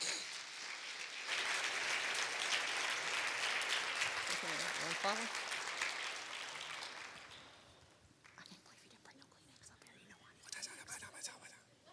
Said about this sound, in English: So if you would, put your hands together, and let's welcome Michelle Halcombe onto the stage today.